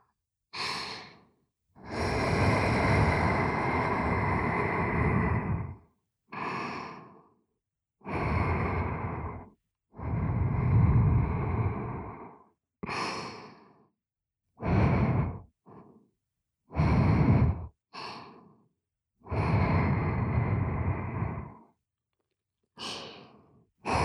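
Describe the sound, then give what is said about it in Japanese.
Gentle ASMR blowing into the ear: many soft, airy puffs of breath, some long and drawn out, others brief, separated by quiet pauses, with no speech. “もう一度お耳ふうふうしていきます。”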